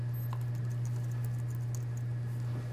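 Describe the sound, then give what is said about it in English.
Light, quick clicks of typing on a computer keyboard patter faintly over a steady low electrical hum. “just type it as I go along”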